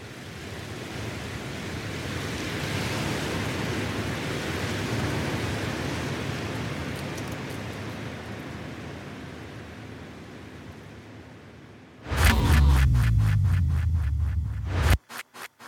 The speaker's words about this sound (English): Let's listen to the sound of wind blowing on the beach.